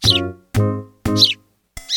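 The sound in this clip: A human voice imitates house sparrow chirping with four short, squeaky chirps separated by brief pauses, the last one cut off at the end.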